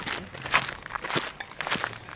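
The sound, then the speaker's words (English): Footsteps walking along a canal towpath: a short run of several soft, fairly evenly spaced steps, faint and unaccompanied by talk. “Let's walk on.”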